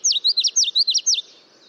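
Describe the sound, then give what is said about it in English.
Song of a common yellowthroat warbler: a rapid series of high, sweet chirping notes grouped into quick repeated phrases, clear and fairly loud, stopping after just over a second. “Common yellowthroats are warblers that are skillful at living alongside people, making them a great introduction to the songs and bright colors of the warbler family.”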